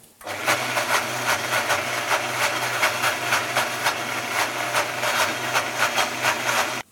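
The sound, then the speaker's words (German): Vitamix blender pureeing hummus ingredients, a loud, sustained, pulsing whir that starts abruptly, holds steady for several seconds, then cuts off sharply. “Ich habe hier alle Zutaten jetzt im Vitamix-Behälter und werde das jetzt einmal pürieren.”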